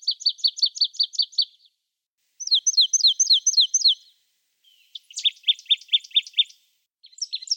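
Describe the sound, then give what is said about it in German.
A marsh tit sings three rapid phrases of repeated high, clipped notes separated by short pauses, and a fourth phrase begins at the very end. The notes are bright and evenly paced, with no other sounds. “Es handelt sich um eine Meise, so viel haben wir schon gesagt. Und zwar um die Sumpfmeise. Und damit hören wir uns nochmal den Gesang an.”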